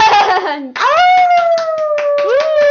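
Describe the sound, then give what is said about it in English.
Hands clapping in quick, even strokes while a high, gliding whoop or howl rises and falls over them, loud and brief. “applause? There it is. A little delayed, but I'll take it.”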